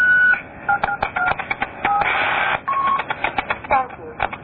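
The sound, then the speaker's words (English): Telephone keypad tones sound as a number is entered: many short, bright beeps in a quick, uneven sequence, with a brief burst of hiss partway through. “Please enter the caller ID number. Please enter your telephone number.”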